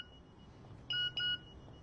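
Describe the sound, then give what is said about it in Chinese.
A mobile phone rings with two short, bright electronic beeps in quick succession, fairly loud against an otherwise quiet background. “贾迪的手机响了”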